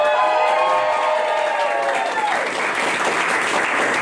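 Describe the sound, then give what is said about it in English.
A live audience in a room of coaches applauds and cheers, a dense, steady wash of clapping that holds at an even, loud level throughout. “This is the first time we're recording the Perspectives Podcast with a live audience. And we have some of the most amazing coaches at TCI here in the room.”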